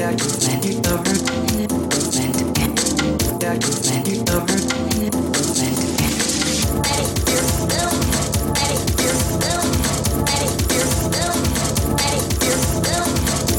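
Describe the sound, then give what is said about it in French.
A dense music collage built from sampled noises and dialogue taken from the film Terminator 2 plays loudly and continuously, with a busy rhythmic texture. “Rien que des sons, des bruits et des dialogues extraits du film Terminator 2. Un boulot de malade, moi, je vous dis.”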